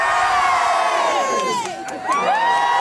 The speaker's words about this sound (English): Three cheers for Her Majesty the Queen! Hip hip! Hooray! Hip hip! Hooray! Hip hip!